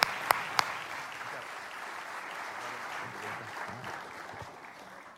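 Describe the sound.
Applause from a church audience welcoming a speaker after a prayer, opening with a few sharp claps and then settling into steady, even clapping that thins slightly toward the end.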